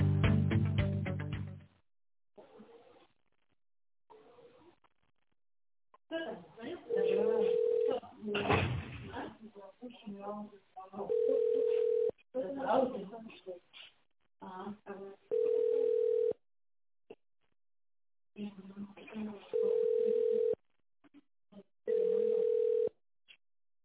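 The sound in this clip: Telephone ringback tones follow an extension dialed in tone mode on a company's automated phone line. Five steady mid-pitched beeps repeat at even intervals, with a voice talking at the start and between the tones.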